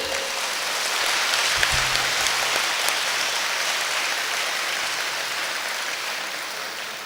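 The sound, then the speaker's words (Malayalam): Audience applause with hands clapping: a steady, sustained wash of many claps that holds at an even level and tapers slightly at the end. “എന്റെ മക്കളെ കൈയടിച്ചേ”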